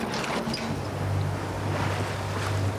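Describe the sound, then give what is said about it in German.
Steady rush of wind and water from a sailing boat leaving harbour on the Baltic coast near Kühlungsborn, with a constant low rumble underneath and no distinct separate events. “Und wenn du jetzt guckst, dann fahren wir jetzt so aus dem Hafen raus.”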